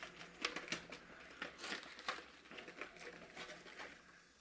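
Paper gift wrapping being torn open, with faint crinkling and several sharp ripping crackles scattered irregularly throughout.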